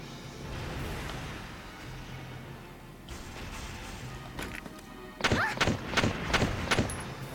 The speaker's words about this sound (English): I'm going to use it. I'm going to shoot the thing.